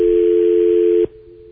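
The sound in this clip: Steady telephone dial tone on a line used to dial a hotline: a loud, continuous single hum that lasts about a second, then cuts off abruptly and leaves only a faint residual hum.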